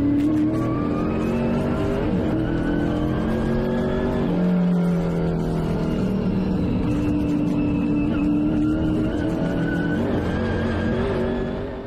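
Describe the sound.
Race car engines roar and rev at a race, a loud, continuous drone whose pitch shifts as the cars accelerate and run, filling the whole clip without talk.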